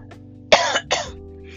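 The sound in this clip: A person coughs and clears their throat from a tickle, producing two harsh, rasping bursts close together, with a faint low hum beneath.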